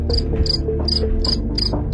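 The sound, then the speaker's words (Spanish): Crickets chirp in a steady, evenly spaced series of short, high, shrill pulses over a low constant background hum, with no voices. “hoy te vamos a dar unos grillos”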